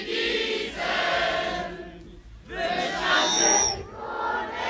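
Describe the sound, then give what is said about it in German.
A mass choir of 739 voices sings a chorus together in Obersontheim. The sound is loud and full, in two sung phrases split by a brief pause. “Ja, so klingt das jetzt in Obersontheim. Und das ist die Musik aus der Kehle von 739 Sängerinnen und Sängern.”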